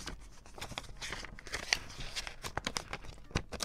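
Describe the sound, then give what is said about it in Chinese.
Crisp crinkling and rustling of a stiff green paper envelope being handled, with many sharp snaps and ticks of the paper over steady soft rustle. “这个信封很有质感耶，好硬的绿西龟绿。”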